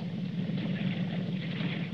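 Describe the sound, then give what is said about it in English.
A motorboat engine drones steadily out on the water, a continuous low, rumbling hum with a buzzing midrange and a faint hiss above, holding an even, moderate level throughout with no voices. “But what on earth is he going to do out here in this motorboat?”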